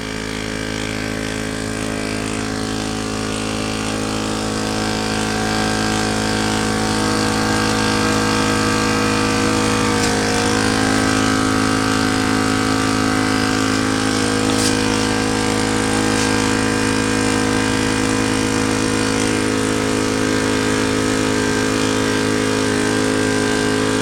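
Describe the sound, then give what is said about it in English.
A tire inflator hums steadily as it pumps air into a car tire. The motor drone stays loud and unbroken, with no pauses and barely any change in pitch. “so let's turn it on. Connected to the tire already. Here we go. And I'll just show you how fast it fills up the tire.”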